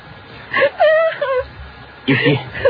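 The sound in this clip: A person cries in whimpering, wailing bursts. A few tremulous sobs come close together, then a pause, then another shaky wail.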